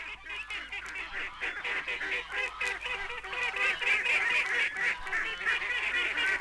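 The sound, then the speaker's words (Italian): Ducks squawk and honk in a busy, overlapping chorus of many nasal calls. The calls grow somewhat louder toward the end. “lo starnazzare perplesso delle anatre,”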